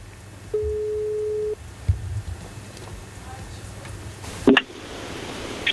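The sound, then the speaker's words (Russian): A single steady ringback tone of about a second sounds on a phone line as a summer-camp director calls a parent, followed by a few faint clicks and rustles. “Гудки.”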